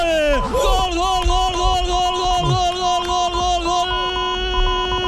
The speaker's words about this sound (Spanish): lo celebran los aficionados del Villarreal desplazados, hay alguno que otro ahí en el Sardinero, ¿eh? Unos cuantos en la curva sur y el público racinguista que se ha quedado, no te voy a decir mudo